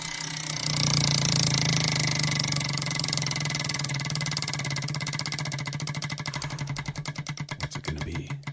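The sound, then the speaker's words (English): A prize wheel spun in a music game, its pointer clacking rapidly at first, then the many clicks gradually space out as the wheel slows toward a stop. “All right, let's spin the Wheel of Long Songs.”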